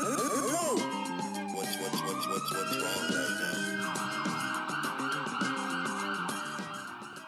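A police siren wails continuously and loudly, its pitch swooping down and then climbing back up over car noise.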